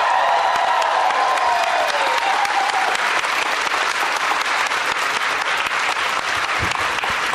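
An audience at a comedy show applauds a guest with loud, steady, dense clapping that holds at an even level from start to finish.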